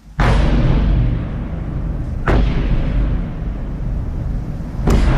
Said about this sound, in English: We start in Ukraine and the all too familiar sound of Russian bombardment in the capital Kyiv overnight